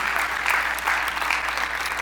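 A church audience applauds to welcome online viewers with steady, dense clapping that runs evenly from start to finish without talk.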